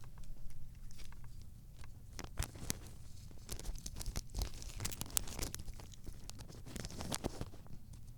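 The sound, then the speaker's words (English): A cat licks and chews a plastic bag holding paper, making many irregular crinkling, crackling and crunching bites and rustles, fairly faint and continuous throughout, with no talk. “That was the sound of my cat licking the plastic bag.”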